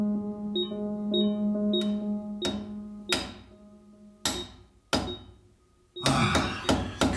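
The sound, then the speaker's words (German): Hammering at a hole in a house wall: several sharp, irregularly spaced blows, ending in a quicker burst of strikes, all over a steady low hum. “Was hämmerst du denn? Ich arbeite an dem Loch in der Wand.”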